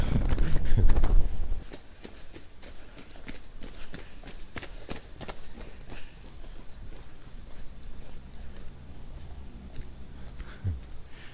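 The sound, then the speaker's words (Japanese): Two children in casual clothes running past in a game of chase: a brief loud burst at the start, then many quick, light footsteps pattering steadily. “今のはランナーというよりは、追いかけっこをしている兄弟って感じの2人が走ってきましたが”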